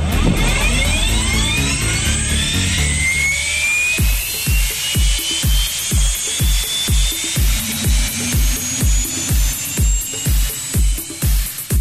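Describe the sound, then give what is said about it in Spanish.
A light aircraft engine starts up on the ground at an airfield. A whine climbs in pitch for several seconds, then settles into a loud, steady, rhythmic throbbing that runs to the end. “Quilmes, aquí Sir Robert Mix, en Parking Q, solicito puesta en marcha para posterior plan de vuelo presentado. Sir Robert Mix, autorizado puesta en marcha, vuelva en condiciones para su despegue.”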